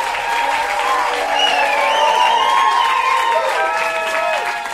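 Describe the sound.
A live studio audience applauds to welcome a host to the stage, a dense, steady clapping that holds at full strength throughout, with some tonal voices or whoops mixed in.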